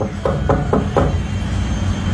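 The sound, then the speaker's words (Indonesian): Four heavy, evenly spaced knocks on a door land in quick succession, loud and forceful, then stop, leaving a low steady rumble underneath. “Biasanya kalau Pak RT ketukannya pelan, Bu. Ini kok seperti mau roboh pintunya.”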